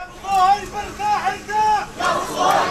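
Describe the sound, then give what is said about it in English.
A large crowd in a funeral procession moving through Gaza City chants loudly in rhythmic shouted bursts, the voices rising and falling together in repeated waves. “That is the sound of a funeral procession moving through Gaza City today.”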